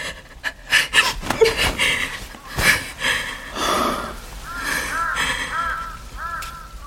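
A bird calling with a run of short, repeated arched cries in the second half, preceded by breathy, noisy sounds.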